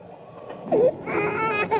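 A hungry baby cries in a few short, strained bursts. A brief wavering sob comes first, then a longer, steadier wail.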